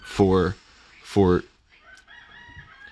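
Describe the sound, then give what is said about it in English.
A rooster crowing outside, two short, loud, harmonic calls in quick succession, followed by quieter, fainter sounds. “I just heard a rooster out there. That's great.”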